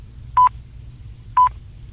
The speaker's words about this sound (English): And we should be dialing the time for Australia.